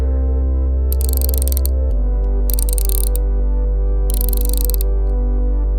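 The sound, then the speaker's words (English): Valve heads being tightened after realigning an intake lip, three bursts of rapid ratcheting clicks over a loud, steady low mechanical hum. “Lift up the central panel. Oh yeah, that looks out of whack. Realign the lip into the main intake again. Then tighten the heads on valves 1 and 4.”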